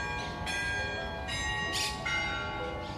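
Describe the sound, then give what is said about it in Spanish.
Church bell ringing the Angelus, several struck tones ringing out with long, overlapping resonant hum between strokes, moderately loud and steady with no voices. “Que casi se nos pasa el Ángelus. Menos mal que ha sido sonar el toque y todos nos hemos quedado parados casi como estatuas.”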